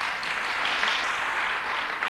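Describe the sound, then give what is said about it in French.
Soft audience applause for women celebrating their name day at a religious talk. The clapping is steady and even throughout, then cuts off abruptly at the end. “Bien, eh bien, on vous applaudit parce que c'est votre fête.”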